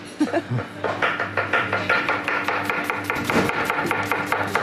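A young man quickly hand-carving wood with a knife, producing many fast, regular cutting strokes, each a crisp scraping snap, in a steady brisk rhythm.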